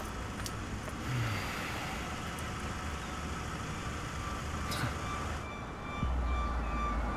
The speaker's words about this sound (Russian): Остановился черный джип.